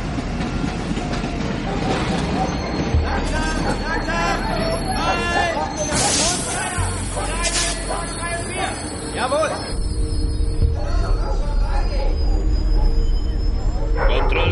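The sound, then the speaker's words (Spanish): A train arrives at a station with loud rolling rumble, rhythmic clickety-clack and bursts of high wheel squeal, while people talk and a murmur of voices continues throughout. “Años atrás, un tren llega a una estación.”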